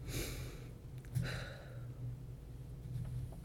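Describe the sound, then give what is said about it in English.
A deep belly breath, faint and soft: airy breath noise comes in a couple of gentle swells separated by quieter moments. “As I take a deep belly breath at this moment, I invite you to do the same.”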